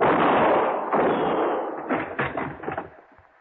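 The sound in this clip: Gunshots in a radio detective drama: heavy, roaring blasts give way to a few sharper, quicker cracks that fade toward the end, with no talk.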